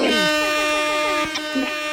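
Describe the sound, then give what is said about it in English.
Air horns are sounded during a phone-in call: a loud, sustained, brassy blast with a wavering tone, briefly dipping near the middle before continuing. “You need my air horns.”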